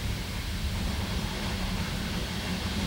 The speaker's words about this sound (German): Daniels Mutter, Barbara Kraushaar, sitzt in einem D-Zug-Abteil zwischen Hannover und Göttingen.